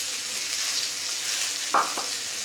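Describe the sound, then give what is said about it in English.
Spring onions and carrots sizzle as they stir-fry in hot chili oil, a steady bright hiss of frying broken near the end by two quick clanks of a stirring utensil. “So immediately, just that chili sees the oil, and immediately we put the vegetables inside. Spring onions, carrots,”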